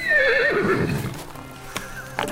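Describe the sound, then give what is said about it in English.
A horse neighs loudly, its high wavering whinny sliding downward in pitch, followed by two brief sharp hoof knocks. “This is my dad's horse.”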